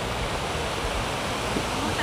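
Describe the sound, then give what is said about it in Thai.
River water flowing freely after villagers pull out a stone dam. The rushing wash is steady and continuous, with no clear breaks. “ชาวบ้านก็จะมาช่วยกันรื้อก้อนหินที่กั้นแม่น้ำออกให้สายน้ำกลับมาไหลดังเดิมค่ะ”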